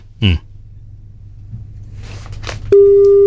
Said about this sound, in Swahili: Simu yake ndio hiyo.